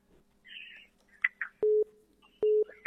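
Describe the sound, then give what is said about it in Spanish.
A telephone busy signal after a dropped phone call: two steady, low, evenly pitched tone pulses with a short gap between them, preceded by a few faint, brief chirpy sounds. “Se nos ha cortado la llamada o el crédito del compañero.”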